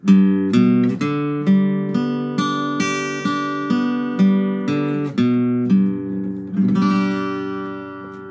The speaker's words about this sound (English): So all I'm doing there is moving my fingers to play the notes that make up the G major chord, but I'm going to play them individually.